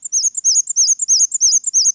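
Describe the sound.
Black-and-white warbler singing a very high, thin song of squeaky two-part notes, repeated rapidly in a steady, even rhythm with nothing else audible.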